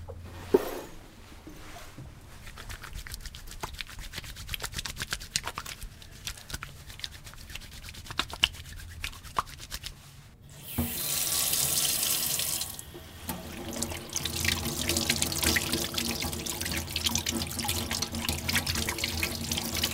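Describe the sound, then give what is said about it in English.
Someone washing their hands at a sink: soft rubbing and scattered drips at first, then a tap gushes on, louder and steady, and keeps running to the end. “That's the sound of somebody washing their hands.”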